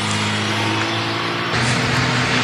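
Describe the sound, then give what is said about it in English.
Road traffic at a crowded intersection forms a steady, loud rumble of engines and tyres that swells slightly partway through. “What is up with the traffic today? And always, every day, this intersection is always crowded.”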